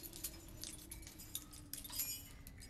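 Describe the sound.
Keys jangle as someone rummages for a particular key inside a church: a string of soft, irregular metallic clinks and chinks, fairly faint, with no voices.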